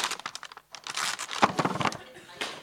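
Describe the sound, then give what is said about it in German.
A sack rips open amid crinkling and crumpling, with sharp tearing bursts and rustles in an irregular run while a voice talks. “danke Silvia, und jetzt reißt der Sack.”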